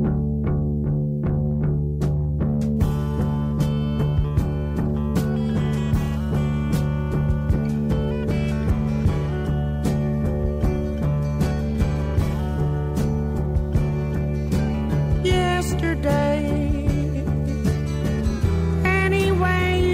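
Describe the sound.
A 1971 studio recording of a soul-folk cover song with a robust, full band arrangement: a few plucked notes open it, then layered instruments play steadily and loudly to the end.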